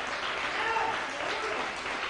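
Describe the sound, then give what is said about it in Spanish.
Applause from a church audience at a morning service, a short, even wash of clapping held at a moderate, fairly soft level. “¿Cuántos le dan un aplauso al Rey en esta mañana por ese favor que Él hace en nuestra vida?”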